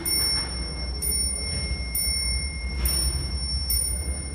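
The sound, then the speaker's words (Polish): A castle clock strikes five times at an even pace of about one second, each bright ringing chime fading over a steady low rumble. “Czyli to są te nasze zamkowe zegary. Mamy w 2:30, a zegar wybił, nawet nie policzyłem ile razy.”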